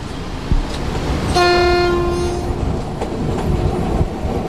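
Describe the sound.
A passenger train departs a station, its low rolling rumble running throughout. Partway through, one loud, steady horn blast of about a second rises over it, with faint clicking wheel sounds around it.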